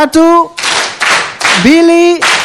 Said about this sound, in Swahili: tuwapigie makofi kwa hilo watoto wa Kokotoa.